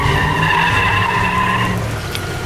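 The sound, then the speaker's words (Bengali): A car brakes hard at night in front of a pedestrian, its tyres skidding in a long, loud, sustained squeal with tonal streaks. The squeal eases slightly toward the end, and no voices are heard. “হিয়া প্রায় গাড়িটার সামনাসামনি গিয়ে পড়েছে বলে গাড়িটা জোরে break কষে দাঁড়িয়ে গেল”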